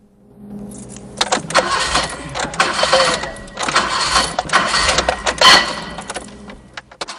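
A car engine cranks as the key is turned again and again, the starter whirring in several uneven, loud bursts with short gaps between attempts.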